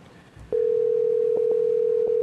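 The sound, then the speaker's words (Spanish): Ringing tone on an outgoing phone call to a mother: a steady, mid-pitched electronic tone starts after a brief quiet moment and holds unbroken to the end. “Ya está sonando. A ver si contesta.”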